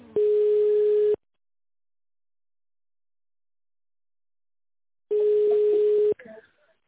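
Telephone line ringing tones play while a call is transferred: two steady, mid-pitched tones, each about a second long, separated by several seconds of silence, with a brief crackle right after the second.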